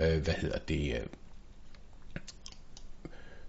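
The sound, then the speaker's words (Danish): A few sharp, faint computer mouse clicks follow a brief stretch of talk, each a dry isolated tick. “Jeg klikker på den her,”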